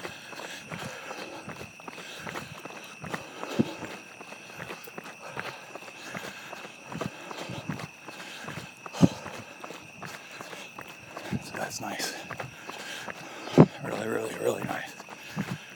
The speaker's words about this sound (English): But like today, I'm running the course that I wouldn't be able to run before. And now I'm running it.